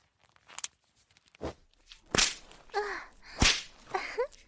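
A leather belt lashes with two sharp, loud cracks. Softer rustling and faint vocal sounds fall between and after the strikes.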